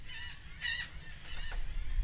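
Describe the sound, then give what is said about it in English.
Seagulls calling as a sailboat passes, a few harsh, nasal, harmonic cries rising over a low, steady rumble of background noise. “I feel like I'm getting swarmed all of a sudden by seagulls.”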